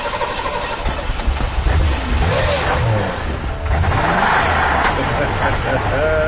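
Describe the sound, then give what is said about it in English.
A car engine runs and revs as gas is given, a low mechanical rumble heard beneath people talking throughout. “He'll try it now. Give it some gas.”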